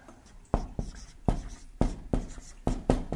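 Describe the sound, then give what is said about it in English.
Scratchy pen strokes on paper as someone writes out a Bible verse by hand, heard alone in a series of sharp, irregular bursts with short pauses between them. “Now, let me write out the next verse. And it's shorter. It says, and the rich in his humiliation. Now, let me just write it out this way.”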